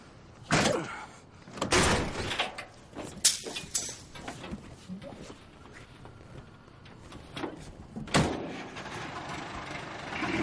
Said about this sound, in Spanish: Se acerca a una camioneta amarilla que hay aparcada en la puerta, rompe la cerradura y abre la puerta.